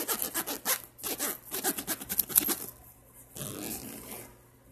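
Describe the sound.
A zipper opens or closes on a clutch bag, giving a run of quick rasping strokes followed by a softer, steadier scraping pull.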